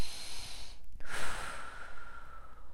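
A single deep breath during a guided body-awareness meditation: a soft airy inhale swells for about a second, then trails off into a long, gentle exhale, with no talking over it.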